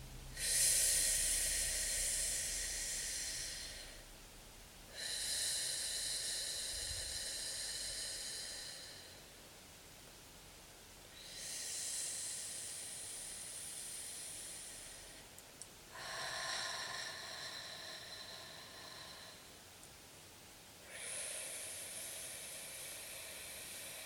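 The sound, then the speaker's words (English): Slow, deep breathing during a relaxation exercise, each exhale drawn out over several seconds; five long, soft, airy whooshes separated by brief pauses, with no voices. “take a long 5 seconds to breathe out. So it'll sound something like this internally, listening to your breath.”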